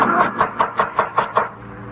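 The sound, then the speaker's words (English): Knocking at a room door: a steady run of evenly spaced, hollow knocks, moderately loud and with no voices, that stops abruptly and leaves a quiet tail. “It was knocking at the door.”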